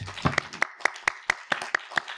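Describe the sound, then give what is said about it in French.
Hand claps closing a sociology talk and discussion: around nine sharp, crisp claps in an even, regular rhythm, each one distinct with quiet gaps between, sounding like only a few people clapping. “On peut vous applaudir.”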